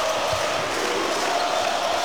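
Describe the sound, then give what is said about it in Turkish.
Basketball crowd of Beşiktaş fans chanting the name of Dušan Olimpijević during a game against Barcelona, a constant roar of many voices at an even level with no clear break. “Olimpijevic'e yönelik bir Dušan tezahüratı var.”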